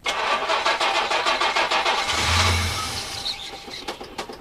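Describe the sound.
A car engine cranking on a frozen, snowy winter morning: a rapid, rhythmic train of starter pulses for about two seconds, then a brief low rumble that fades instead of settling into a steady idle.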